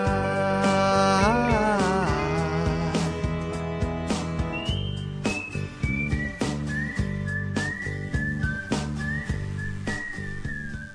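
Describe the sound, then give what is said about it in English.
Whistled melody carried over a rhythmic instrumental backing, the bright tune gliding and wavering in short phrases while the accompaniment keeps a steady beat. “when people stopped whistling in the background”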